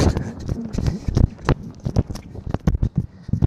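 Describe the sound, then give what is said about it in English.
Footsteps of someone running across a road make a quick, uneven series of many soft thuds. “Don't mind me, I'm just running across the road.”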